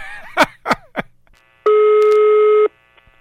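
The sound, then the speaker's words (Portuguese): Telephone line tones while redialing after a call was cut off: a few brief clicks and bursts, then a single steady, loud electronic tone that holds for about a second and stops abruptly. “eu acho que ela desligou. Vamos ligar de novo.”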